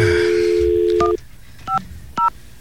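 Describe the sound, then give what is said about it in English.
A telephone number is dialed in DTMF tones: a steady dial tone hums, then three short, loud, two-pitch keypad beeps follow at an uneven pace, separated by faint background hiss. “Okay, let's not dial his number out in the clear.”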